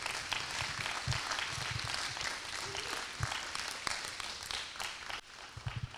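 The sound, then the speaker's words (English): Applause from the audience at Harvest Church welcomes a speaker up to share a membership testimony: dense, continuous clapping that thins a little near the end. “So with that, let's give a hand to the Lord as we welcome him up.”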